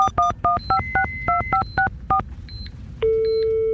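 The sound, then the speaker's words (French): Touch-tone telephone dialing: a rapid, evenly spaced run of many short electronic beeps, each a bright paired tone, followed by a steady continuous line tone. “maintenant il faut que j'appelle Nathalie.”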